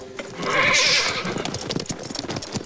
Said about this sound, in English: Doc runs away as Sheriff Brady and his men approach on horseback.